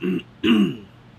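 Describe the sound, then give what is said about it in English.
Two short throat-clearing bursts, each a rough, voiced rasp, with a brief pause between them. The second is slightly longer and louder, and a low murmur of breath trails off after it. “I'm already coughing.”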